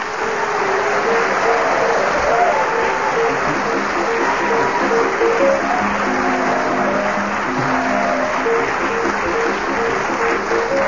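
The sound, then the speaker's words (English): Chopin's Minute Waltz plays as a quick, flowing melody of bright running notes, mixed with a steady wash of applause at a fairly loud, even level throughout. “as the minute waltz fades away, once more it is my pleasure to welcome not only our loyal and faithful listeners throughout the world”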